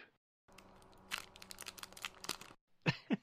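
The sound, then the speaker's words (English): A Ghirardelli chocolate being unwrapped, its wrapper giving off loud crinkling and crackling in a run of sharp bursts, then a short pause before two final louder crackles. “Apparently, Ghirardelli chocolates make a whole lot of noise when you unwrap them.”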